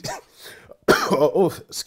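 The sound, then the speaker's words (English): Harsh coughing and throat clearing from a person recovering from a sore throat: a few rough, breathy bursts, a short pause, then a louder run of coughs. “So every now and then there might be a cough, and I can only apologize to our listeners”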